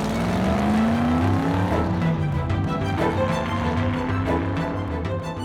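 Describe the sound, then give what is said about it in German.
Red Ferrari engine pulling away as the sports car drives off, its steady tone rising in pitch as it accelerates, heard alone without voices. “Die Pommes-Soko steigt in Fritz Ferraros roten Ferrari und fährt los.”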